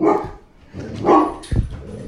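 A dog barks a few times in short, sharp bursts, with quiet gaps between them.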